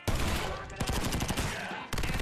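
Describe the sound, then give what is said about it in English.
Rapid gunfire in a firefight involving a tank: dense, loud bursts of shots run almost continuously, with a short break near the end before firing resumes. “Are those shots? Yeah.”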